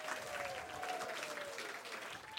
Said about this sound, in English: Everyone, please, one more round of applause.